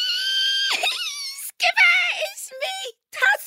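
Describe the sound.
A delighted squeal voiced by a narrator imitating the sound: high, bright, squeaky cries that break into several short squeals in a row.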